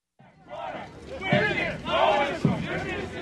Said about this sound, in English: That's the sound of a Communist Party parade that took place recently in Irkutsk.